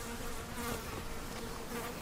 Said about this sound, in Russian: Конюшня. Мухи.